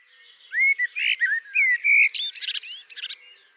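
Song of a blackbird, a male singing its own motif: a run of rich, fluted whistles that gives way to a rapid, higher-pitched squeaky twitter, with the notes clear and loud over a quiet background.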